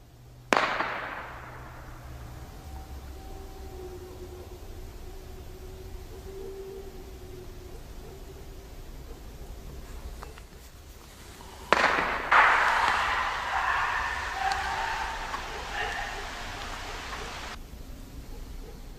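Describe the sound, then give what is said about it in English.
A gunshot fired into the woods: one sharp, loud bang near the start with a trailing decay, then steady quiet background noise. “Somebody just shot over into the woods.”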